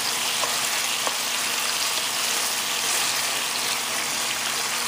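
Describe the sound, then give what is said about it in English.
Chicken browning in a pan gives a steady, bright sizzle of frying, an even crackling hiss that barely changes level from start to finish, with no voices. “until you see that the chicken is a little bit browned, just like so.”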